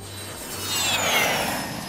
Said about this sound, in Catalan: I ara, com cada dimarts pujam a l'avió de l'estudi de TV3 Ràdio i partim a visitar qualque mig del programa que viu a fora de Balears.